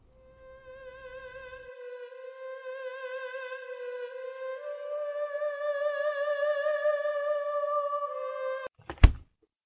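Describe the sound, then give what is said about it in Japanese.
A refrigerator door shuts with one short, sharp thunk at the very end, after a long, steady harmonic tone that slowly swells in loudness and then cuts off. “冷蔵庫の扉がパタリと閉まった。”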